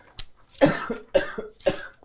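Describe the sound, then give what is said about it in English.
Coughing from a person with a sore throat: three sharp, hacking coughs at an even pace, each with a shorter follow-up cough, at moderate loudness with no talk. “I apologize, I have a bit of a cough.”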